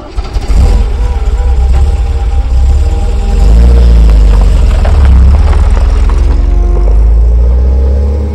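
A taxi car's engine drones loud and steady throughout, with a deep low rumble and a brief swell in the middle, as passengers set off from the airport in Dibrugarh.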